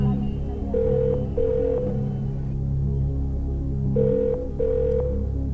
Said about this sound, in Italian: Ascoltiamo la prima traccia. Sta squillando.